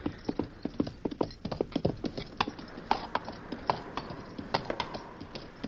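A horse's hooves walking into a cave, a steady, fairly faint clip-clop of many quick hoofbeats in an even walking rhythm, with no voices.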